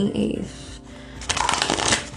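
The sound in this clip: Tarot cards being shuffled by hand: soft papery rustling at first, then a longer, dense riffle of cards through the second half, fairly loud and steady.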